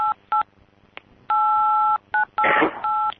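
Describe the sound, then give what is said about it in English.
Telephone DTMF dialing tones played as a song: a string of clear electronic beeps of differing pitch and length, mostly short with one long held tone, and a brief burst of noise near the end. “He's playing a song with the DTMF.”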